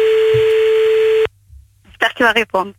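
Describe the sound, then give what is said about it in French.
Ringback tone of an outgoing telephone call: one steady electronic tone of about a second cuts off abruptly, followed by a short silence and then a voice speaking briefly. “On y va. Ah. Déjà ça sonne, c'est parfait.”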